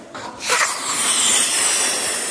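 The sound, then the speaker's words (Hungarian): A teacher blows up a balloon by mouth during a classroom science experiment. A short breathy puff leads into a long, steady rush of hissing air that continues to the end, with no talk. “Először is fölfújom a lufit, amíg fújok, addig reklám.”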